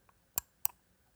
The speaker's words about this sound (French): Dès que vous entendez un clic, c'est que je clique